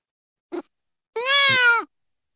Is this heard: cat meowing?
yes

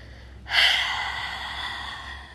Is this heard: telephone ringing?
no

